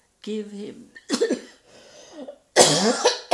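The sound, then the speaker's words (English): Harsh coughing from a person in a dry apartment: a few abrupt, breathy bursts separated by short pauses, with the last burst the loudest and longest. “I'm sorry to cough.”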